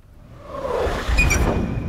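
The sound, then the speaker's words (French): A rocket's rapid hiss swells into a broad rushing whoosh, building steadily over two seconds, with a thin high steady tone joining in the second half. “Chuintement rapide d'une fusée.”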